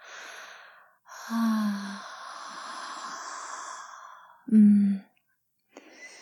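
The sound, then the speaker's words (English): Breathy exhales blown out close onto another person, a few airy sighs of uneven length, some carrying a low voiced hum, with short silent gaps between them and no words. “Let me just breathe on you.”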